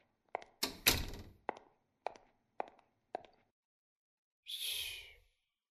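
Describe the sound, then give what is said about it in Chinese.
A door is pulled shut with several short, sharp thuds and latch clicks in quick succession, then a longer soft rushing burst near the end. No voices are heard. “我先把门关上”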